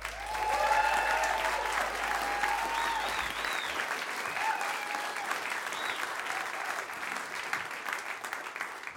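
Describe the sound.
Audience applause at a storytelling event as the next storyteller is welcomed: steady, dense clapping throughout with a few whoops near the start, easing slightly toward the end.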